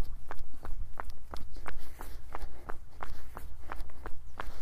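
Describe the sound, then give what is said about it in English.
Heavy footfalls of someone walking in shoes, a steady, even series of many thudding steps with sharp heel strikes in a regular rhythm, fairly loud and with no talk. “some other things I noticed when I was walking in these initially was a very heavy footfall.”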